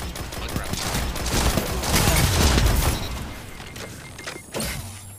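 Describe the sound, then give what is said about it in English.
Rapid machine-gun fire in a video game: a dense, continuous rattle of shots that holds for several seconds, heaviest in the middle, then thins out toward the end. “Oh shoot, ah, there's a machine gun. I ran right into that. Machine gun.”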